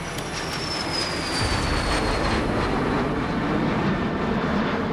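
An aircraft takes off with a loud, steady engine roar and a thin high whine that glides slightly downward. No voices are heard.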